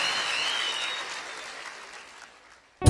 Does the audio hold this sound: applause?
yes